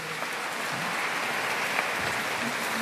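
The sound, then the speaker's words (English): Steady, dense applause fills the whole stretch as an audience gives a round of applause for a priest, Father Tomás. The clapping stays even and unbroken from start to finish, with no talk over it. “Father Tomás deserves that round of applause, definitely deserves that round of applause.”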